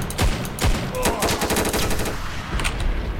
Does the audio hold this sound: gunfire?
yes

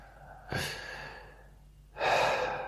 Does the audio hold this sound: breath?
yes

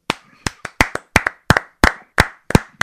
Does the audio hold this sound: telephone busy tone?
no

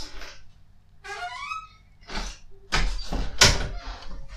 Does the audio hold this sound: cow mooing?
no

